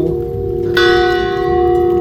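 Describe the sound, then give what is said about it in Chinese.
An automatic church bell rings with no one pulling it: a single loud strike, then a bright, sustained ringing tone that holds steady over a low background rumble. “钟声响咯，”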